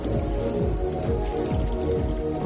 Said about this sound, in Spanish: Sonríe mientras se lava las manos.